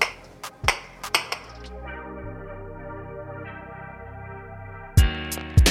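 Glasses clink together in a toast, a few sharp, bright chimes at the start and a few more near the end, with a steady tonal hum sustained between them.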